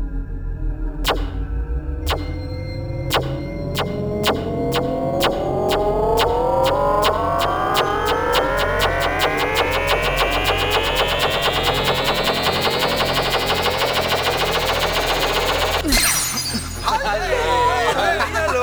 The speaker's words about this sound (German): Also schön, ich lese mich mit dem Körperscanner zu euch in den Computer. Ich lade nur schnell meine Körpermolekulardaten. So, ich scanne mich jetzt.